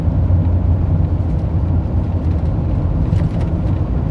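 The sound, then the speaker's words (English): Steady road rumble of a car driven impatiently close behind, a dense low drone holding at an even loudness throughout without clear breaks. “think my coworkers behind me driving like someone who's impatient.”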